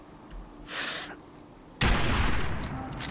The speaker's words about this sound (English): I shot him in the head and he's still alive.